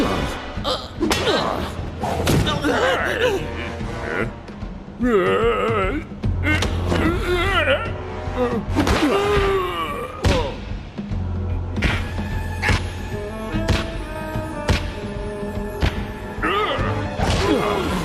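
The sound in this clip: Heavy punches land again and again as loud thuds, smacks and crashes in a busy, continuous fight. Voices are heard between and over many of the blows.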